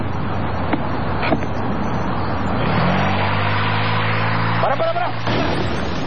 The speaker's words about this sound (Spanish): Apretás el embrague, pones primera, y mientras vas largando el embrague, vas apretando el acelerador despacito.